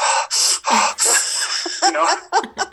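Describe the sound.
A voice imitates a deep breath in and out, with several loud, breathy gasps and huffing exhales that end in a few short, snorting, laugh-like puffs.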